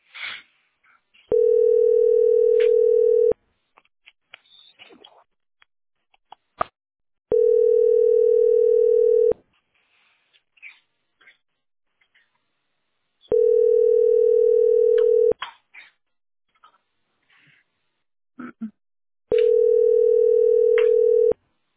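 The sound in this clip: A telephone tone sounds while a call is placed: four long, steady mid-pitched beeps, each about two seconds, separated by longer pauses, with faint clicks and rustles in the gaps.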